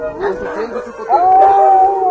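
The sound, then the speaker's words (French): Dogs howling: a wavering howl at first, then a long, steady, mid-pitched howl held through the second half, with murmur underneath. “C'est un petit peu impressionnant quand on les voit comme ça, quand ils aboient et tout.”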